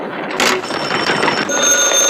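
A telephone rings in a wartime military scene, a continuous shrill electric jangle with high ringing tones that persists throughout and shifts slightly partway through.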